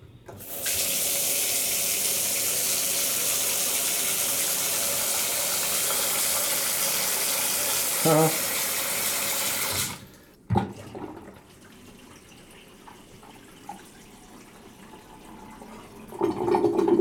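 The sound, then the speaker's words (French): Water drains through a newly unclogged sink trap in a steady, loud rushing flow for about ten seconds. It stops abruptly, leaving faint gurgles and small knocks. “Et là, on a ce bruit caractéristique d'un siphon qui est débouché.”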